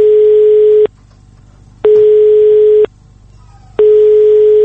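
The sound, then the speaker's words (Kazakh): Telephone line tones from a call to the Otyrar district hospital that nobody picks up; three loud, steady, identical beeps about a second long, separated by equal silent gaps in a regular on-off rhythm. “Науқастың қалын білмек болып Отырар аудандық ауруханасына хабарласқанымызда телефон тұтқасын ешкім көтермеді.”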